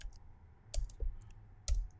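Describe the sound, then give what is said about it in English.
Typing on a computer keyboard, heard as a few faint, sparse key clicks in small bursts over a quiet, steady hiss. “I'm going to type it in here.”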